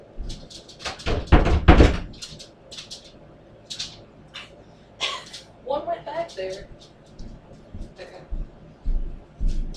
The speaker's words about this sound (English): I might as well just go open the door up so they call me.